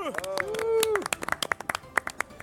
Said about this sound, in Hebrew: שופטים, בוא נקבל מחיאות כפיים, מנדי ג'רופי!